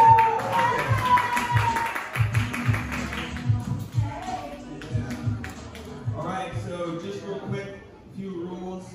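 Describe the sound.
An open-mic comedy audience clapping to welcome the host, a burst of busy applause that thins out over the next few seconds as talking takes over.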